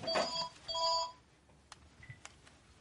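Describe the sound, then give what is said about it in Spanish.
A cordless telephone rings with two bright electronic trilling bursts in quick succession, then falls silent, leaving only a few faint clicks and small handling noises. “Se aleja de la escalera y coge un teléfono inalámbrico.”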